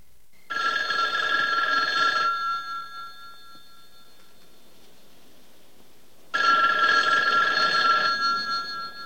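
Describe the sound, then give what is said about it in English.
A telephone rings in a house at night. Two long, bright, trilling bell bursts are separated by several seconds of near silence, with no voices. “Hearing the telephone, he moves back through the grotto and heads towards it.”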